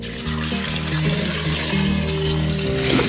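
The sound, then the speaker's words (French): Water pours over potatoes in a pot to cover them for mashed potatoes, a loud, steady rushing stream that runs unbroken for about three seconds. “On les recouvre d'eau à 2 ou 3 cm au-dessus.”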